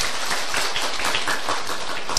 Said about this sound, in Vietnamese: Chúng ta cho một tràng pháo tay.